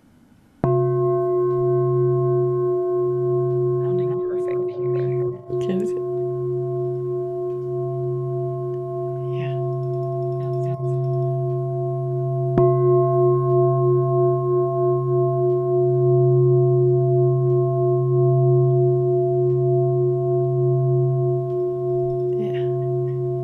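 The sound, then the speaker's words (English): A crystal singing bowl played with a mallet rings as a loud, steady hum with clear overtones, holding almost unchanged for over twenty seconds, with a few faint taps and rustles on top. “I've actually never heard a sound of a crystal bowl sound like this.”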